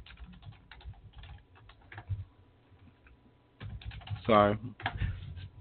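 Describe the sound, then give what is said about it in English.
Typing on a computer keyboard: quiet clusters of keystroke clicks in short bursts with pauses, and a brief voice cutting in near the end. “I got to type on the computer and also talk on the mic.”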